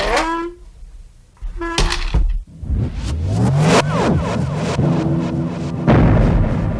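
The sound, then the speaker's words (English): A rocket launches after a countdown: two short tones come first, then a deep rumbling roar builds and swells in loudness, staying loud and dense to the end. “Nine, eight, seven, six, five, four, three, two, one. Blast off.”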